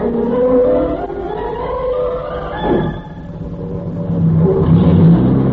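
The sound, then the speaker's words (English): A convertible car drives with a continuous mid-pitched engine drone. The engine note climbs and shifts as it revs, steady and fairly loud throughout. “She took me for a ride in her convertible.”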